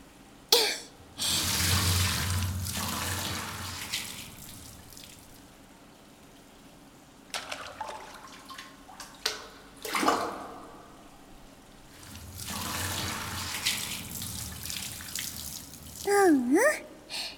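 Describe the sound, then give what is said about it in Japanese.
Hot water poured from a full bucket over someone being bathed, splashing in a loud burst at the start and again in a longer pour later on, with quieter sloshing and brief knocks in between. “お湯、桶いっぱいに入れたわよ。”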